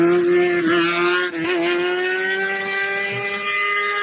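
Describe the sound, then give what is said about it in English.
A motorbike engine revs hard during a wheelie, a loud, sustained high whine that dips briefly twice early on and then holds a steady, slightly rising pitch. “Oh my goodness. How good is a wheelie? How fucking good is a wheelie? I love a wheelie.”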